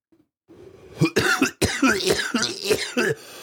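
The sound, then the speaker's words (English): Deliberate, performative fake coughing: a quick run of several hoarse, voiced cough bursts packed into about two and a half seconds, loud and with no other sound. “Performative coughing.”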